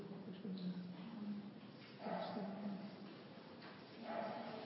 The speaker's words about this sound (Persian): صدای سگ میاد